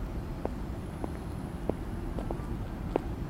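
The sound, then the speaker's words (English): A man's footsteps approach in a park, a few soft, evenly spaced steps over a faint, steady outdoor background. “Another man is walking towards me, touching his own face.”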